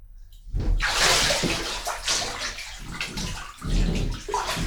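Hot water pouring into a bathtub as it fills, a steady, full rushing splash that swells and eases slightly in waves, heard alone without voices.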